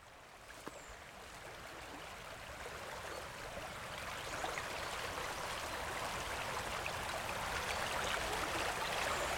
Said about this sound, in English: This is the song of the River Usk in Spate, flowing fast and deep